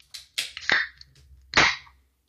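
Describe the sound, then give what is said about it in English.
A bottle of Fumé Sans Feu smoked malt beer being cracked open: a few sharp clicks and two louder hissing pops. “a smoked malt beer, which sounded intriguing. It's called Fumé Sans Feu, smoke without fire. So yeah, I'm going to crack that open.”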